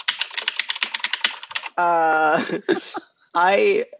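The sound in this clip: Fingers type rapidly on a computer keyboard, a dense run of crisp clicks lasting about a second and a half, then sustained voiced sounds from a person follow.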